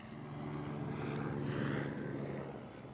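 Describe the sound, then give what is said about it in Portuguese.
A helicopter's engine and rotor drone steadily under a starry night sky in an animated film, a faint, continuous low rumble that swells slightly midway and then eases, with no voices. “Helicóptero.”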